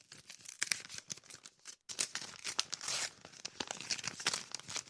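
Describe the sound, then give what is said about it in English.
A paper envelope being torn open by hand: many quiet crinkling, crackling rustles and a few longer ripping tears, with a brief pause partway through and no voices. “Sorry, sir, I ruined your envelope.”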